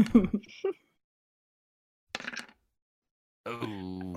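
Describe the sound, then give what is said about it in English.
Two dice rolled during a tabletop role-playing game: a short rattling clatter, then a second brief clatter after a pause, followed by a person speaking. “Roll bear with two dice.”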